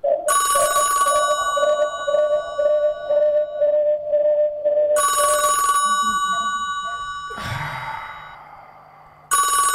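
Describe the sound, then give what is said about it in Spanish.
A telephone rings with bright, loud electronic bursts that repeat a few times, separated by pauses, alongside a lower pulsing tone. “Están llamando, ¿quién será?”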